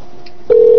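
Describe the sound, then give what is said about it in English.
A steady electronic telephone tone signals an incoming caller on a radio call-in show. It cuts in about halfway through as one loud, sustained mid-pitched note that holds unbroken to the end, with no voices. “Oh, we got a caller coming in?”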